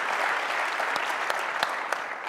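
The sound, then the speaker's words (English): Dense, steady applause from an audience greeting a speaker at the end of a talk on prospecting, many overlapping claps forming an even wash of sound with no talk over it. “Let's give Mike clap. A hand.”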